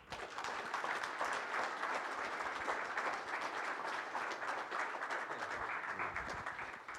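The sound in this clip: Applause from an audience welcoming a speaker at a diocesan gathering: dense, steady clapping that holds at an even level for the full seven seconds, with no voices over it.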